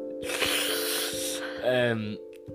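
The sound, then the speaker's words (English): A big, deep inhale draws in as a long, breathy rush lasting about a second, then a brief voiced sound follows. “I'm just taking a big inhale, you know, trying to get that.”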